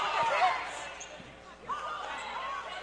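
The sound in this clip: A basketball dribbled during a Dort College game. A few faint bounces sit under a commentator's talk and a murmuring crowd.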